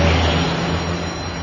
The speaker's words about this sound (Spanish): Una furgoneta circula por una carretera comarcal.